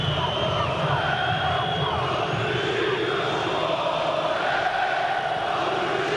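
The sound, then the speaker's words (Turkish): Beşiktaş football fans chanting at the Rhein-Neckar Arena in Sinsheim, Germany, a continuous droning roar of massed voices with faint tonal chant lines running through it. “Saldır Beşiktaş'ı voley tezahüratları Almanya'da Sinsheim'da Rhein-Neckar Arena'da.”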